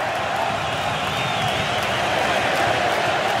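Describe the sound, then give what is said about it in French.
Dense, steady roar of an Ecuadorian football crowd in a Philadelphia stadium, a continuous wash of many voices with no distinct cheers or claps standing out, holding an even loudness throughout. “Et le public équatorien aussi qui essaye de participer à sa manière dans ce stade de Philadelphie.”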